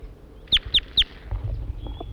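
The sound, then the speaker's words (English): A wild bird sings three sharp, high chirps in quick, even succession, followed by fainter, scattered calls and a thin whistle over a low background rumble. “Now he's flying over near 4-3. Start recording the wild bird now in song.”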